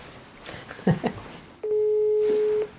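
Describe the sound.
A telephone call rings on the caller's end as one steady, mid-pitched ringback tone lasting about a second, after a brief burst of voice.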